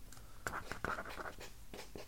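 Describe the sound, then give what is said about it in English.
Handwriting on a writing surface during a quiz round: quiet, scratchy strokes come in several short bursts with small pauses between them, with no talk over them. “I'm writing these down”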